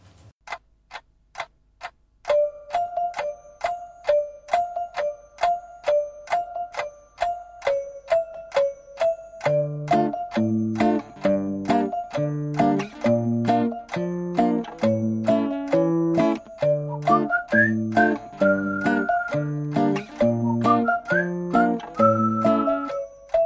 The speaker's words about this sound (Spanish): Y que tiene esta canción silbada, que fue un éxito en el año 2007.